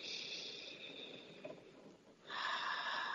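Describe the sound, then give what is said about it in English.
A slow breath out and then a gentle breath in during a guided heart-centred breathing exercise. Both are soft, airy hisses with a short pause between them. “So blow out and slowly, gently breathe in.”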